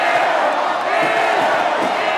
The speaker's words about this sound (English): Maryland fans are also making a point to boo her. Every time she sets up for a shot in front of the Maryland student section, the crowd taunts her.